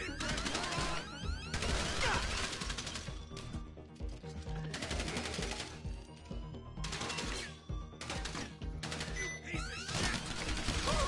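Dense gunfire from a Diamond Casino Heist in the GTA Online video game: loud, rapid bursts of automatic fire that keep coming across the whole stretch with only short gaps.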